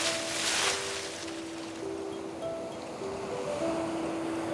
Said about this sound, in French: La tempête de la veille a totalement disparu. La mer est calme, bleu clair, presque transparente.